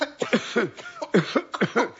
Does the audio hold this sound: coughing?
yes

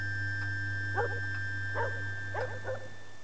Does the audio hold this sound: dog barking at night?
yes

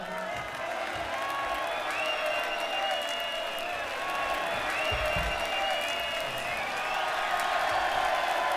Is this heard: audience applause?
yes

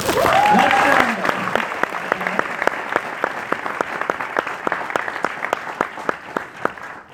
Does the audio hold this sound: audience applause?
yes

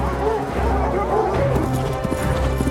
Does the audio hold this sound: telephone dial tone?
no

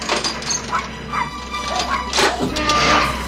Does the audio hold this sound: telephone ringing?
no

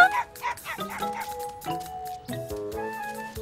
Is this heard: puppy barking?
yes

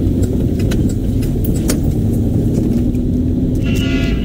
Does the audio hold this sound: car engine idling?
yes

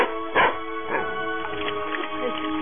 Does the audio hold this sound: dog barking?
yes

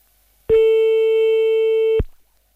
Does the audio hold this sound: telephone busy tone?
yes

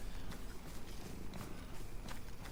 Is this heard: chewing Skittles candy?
no

